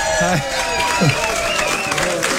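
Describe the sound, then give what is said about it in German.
Audience applause greets a guest arriving on stage, a dense wash of clapping running through the whole clip with voices and cheering rising over it. “Hallo, vielen Dank für den Applaus.”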